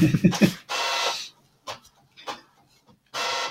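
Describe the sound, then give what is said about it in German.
A home printer printing: a burst of rapid mechanical clicks, then whirring passes of the print mechanism, some long and some short, separated by quiet pauses. “Ja, jetzt lässt meine Frau hier leider gerade was drucken.”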